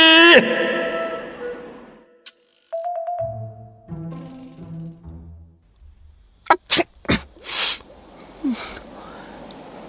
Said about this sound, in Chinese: 展昭蹲在一个池子边，伸手测水温，突然仰脸一个喷嚏，他直揉鼻子